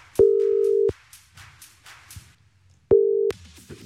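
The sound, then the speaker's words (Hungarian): Two long, steady, mid-pitched ringback tones sound as a telephone call is placed to a game winner from a radio studio. A pause with faint low noise separates them. “Most pedig én hívok valakit, a játékunk nyertesét, aki elsőként küldött nekünk üzenetet a játék felhívás után”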